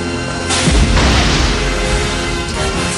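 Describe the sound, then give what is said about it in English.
A heavy gunshot blast as a rope is shot through during an action sequence, with a booming low-end thud and a sharp second burst just after, then a sustained roaring rumble that carries on loudly to the end. “Forrest shoots the rope. Jennings falls towards the tank.”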